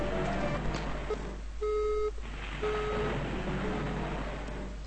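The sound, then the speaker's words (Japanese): A mobile phone call is abruptly cut off: two flat electronic beeps, each about half a second long, follow one another closely over steady background hiss and hum. “そこでプツリと電話は途切れた。そこでプツリと電話は突然切れたか。”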